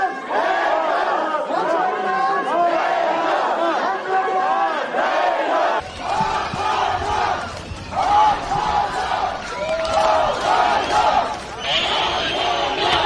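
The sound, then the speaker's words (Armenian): Robert Kocharyan's supporters cheer and shout outside the Constitutional Court after its ruling. The many voices form a loud, continuous roar of yells and chanting, with a heavier rumble joining partway through. “Մարտի 1-ի գործով մեղադրյալ Ռոբերտ Քոչարյանի աջակիցներն այսպես արձագանքեցին սահմանադրական դատանի որոշմանը։”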